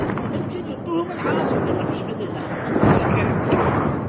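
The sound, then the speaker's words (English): Gunfire and blasts from street fighting in Najaf, Iraq, in 2004, between the Mahdi Army militia and American troops, form a dense, loud, continuous roar throughout, with a few heavier bursts rising out of the rumble. “Street fighting in Najaf in 2004.”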